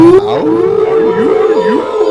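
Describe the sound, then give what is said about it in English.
A werewolf howl sound effect: one loud, sustained tonal howl that wavers up and down in pitch several times over about two seconds, with no talk over it. “Werewolf.”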